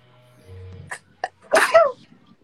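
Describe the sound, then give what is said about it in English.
A single sharp, loud sneeze bursts out after a quiet stretch, preceded by a couple of short faint clicks. “sneeze”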